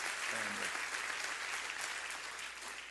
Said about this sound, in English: Clap your hands and rejoice in that right now.